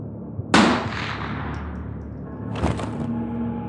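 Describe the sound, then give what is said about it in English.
A gunshot from a .22 caliber rifle: one sharp, loud crack that decays over about a second, followed by a second, weaker burst, with a low hum underneath. “Jason then stepped out of the shadows, aimed his .22 caliber rifle at Chris's head and squeezed the trigger”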